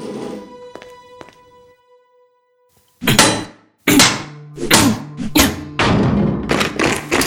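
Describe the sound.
Console being smashed with an arm: faint electronic humming tones fade into a short silence, then a rapid run of loud, heavy thuds and bangs follows, ending in a sustained clattering impact.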